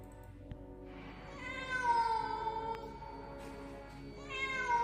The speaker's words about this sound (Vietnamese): Bỗng một tiếng kêu vang lên khiến hắn giật mình, là tiếng của một con mèo kêu văng vẳng ở đâu đó.